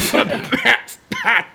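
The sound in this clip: Throat clearing and coughing from someone with something caught in the throat: two rough, harsh bursts separated by a brief pause.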